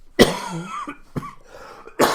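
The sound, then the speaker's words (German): A person coughs into a microphone: a harsh first cough, a shorter second one, then a third burst at the end, with throaty, strained breathing between them. “wenn ich hier noch ein bisschen ins Mikrofon huste, tut es mir leid, ich drehe mich dann auch schnell weg”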